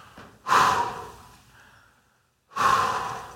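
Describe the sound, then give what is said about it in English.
Two deep, forceful breaths from a breathing exercise, each a sudden loud rush of air that fades off gradually. A short silent pause separates them, with no talking. “You'd be amazed on what a good deep breath can do for you if you just take a deep breath, 5 of them actually. We call it blowing out the candles.”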